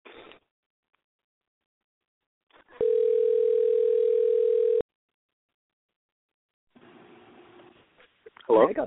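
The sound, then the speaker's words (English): A telephone dial tone sounds while a call is being dialed, a steady, even hum lasting about two seconds before cutting off sharply. People talk before and after it. “It says it's dialing.”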